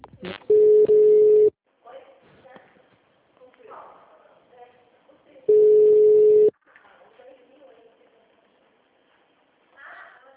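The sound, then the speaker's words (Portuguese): Two long, steady telephone beeps mark a dropped call to the Artur Nogueira city hall switchboard, each tone lasting about a second, with people talking on the line in between. “Oi, eu gostaria de falar no RH, acho que caiu a ligação.”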